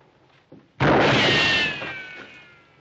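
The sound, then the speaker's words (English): A single loud gunshot bursts out after a brief small knock, then rings and decays slowly into quiet. “Somebody's shooting at somebody. I think it's us.”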